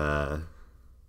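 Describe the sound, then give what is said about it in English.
Office chair creaking in a tonal, meow-like way that sounds much like a cat, a single drawn-out squeak lasting under half a second before fading into quiet. “did you hear that? That was my chair. Okay. I thought it was a cat. That was like a legit cat noise.”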